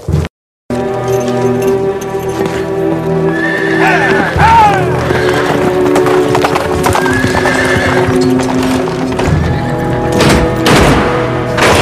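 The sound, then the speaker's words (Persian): A horse gallops with rapid, loud clip-clopping hoofbeats and a shrill whinny partway through, against faint voices. “سوار شو و به تاخت به نزد عالی جناب پوتیفار برو.”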